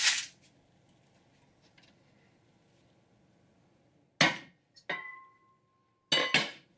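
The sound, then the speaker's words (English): A knife knocks and clinks on a hard surface while cutting butter into smaller pieces. A few sharp, separate hits break the quiet, and one leaves a clear metallic ringing tail. “it's a lot easier to melt the butter if you cut it into smaller pieces first. So I'm going to do that right now.”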